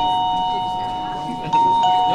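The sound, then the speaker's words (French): A doorbell is pressed to test it, giving a bright electronic ding-dong: a higher chime, then a slightly lower second tone. Both ring clearly over a low murmur of background voices. “appuie sur le bouton pour voir si la sonnette fonctionne.”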